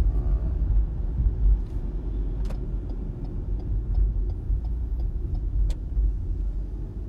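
Steady low car engine and road rumble heard from inside a car on the drive home, continuous and even throughout, with faint regular ticking over the drone.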